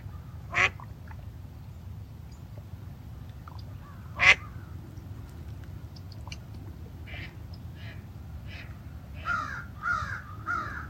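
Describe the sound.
Ducks quack over a steady low rumble: a few scattered, fairly faint calls early on, then a short run of quacks near the end.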